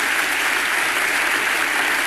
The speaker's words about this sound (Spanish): Segunda ovación cuando habla de la paz desarmada y desarmante.